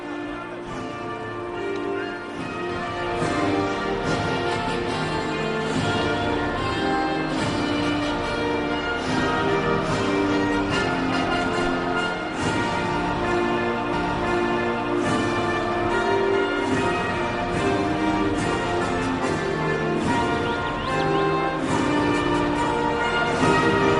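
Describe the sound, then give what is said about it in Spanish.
The Spanish national anthem plays over a stadium public address system before a football match, as continuous, full instrumental music holding a steady level throughout. “Va primero nuestro himno, ¿no? Va primero nuestro himno. Se anuncia en la megafonía, va a sonar el himno nacional de España.”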